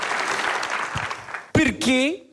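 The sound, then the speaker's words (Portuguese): An audience claps for a performer at a live evening show, with dense, steady applause filling the first half before it gives way to people talking. “Palmas para a Rita.”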